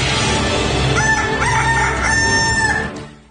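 A rooster crows once in a henhouse, a loud, drawn-out, strained call that rises into a high, harsh note. It sits over a dense, noisy background of fowl and then fades out at the end.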